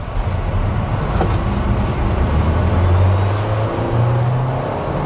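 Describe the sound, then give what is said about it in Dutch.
Combustion engine of a car with a gearbox accelerating at full throttle from a green light, then shifting gear. A loud, steady engine drone holds throughout, and its low note steps higher near the end. “Hoor de verbrandingsmotor ook. Nu schakelt hij.”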